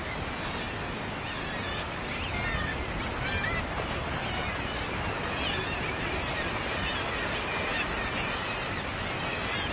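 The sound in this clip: Pairs of common guillemots call at their breeding colony, a dense, continuous chorus of harsh, growling seabird voices that never lets up.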